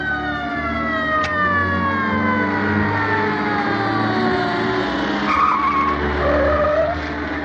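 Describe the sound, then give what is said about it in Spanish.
Several police patrol cars pull up and stop at a door, giving a sustained screeching whine of long, slowly falling tones over a steady low engine rumble, loud and continuous throughout with no voices. “Varios coches patrulla se detienen a la puerta.”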